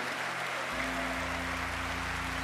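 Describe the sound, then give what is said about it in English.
Church audience clapping during a Good Friday baptism service, a dense, steady patter of applause with low, held instrumental notes underneath. “Let's keep clapping and giving God the glory and the praise for every one of those changed lives.”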